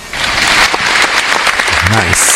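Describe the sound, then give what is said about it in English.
Applause for a gospel performance: a steady, dense wash of clapping across the whole stretch, with a voice briefly audible near the end. “Take this applause for you.”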